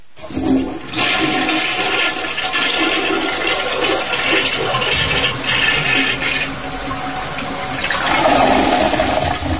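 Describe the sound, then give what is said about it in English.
A toilet flushes with a loud, continuous rushing gush of water that lasts about nine seconds and swells slightly toward the end. “flush me, Tom”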